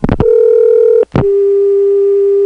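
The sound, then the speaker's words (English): An MCI long-distance dial tone sounds as a loud, steady, single-pitched hum after a few opening clicks. It breaks off briefly with another click, then resumes and holds. “it started with MCI. They created the new normal of a 400 hertz dial tone”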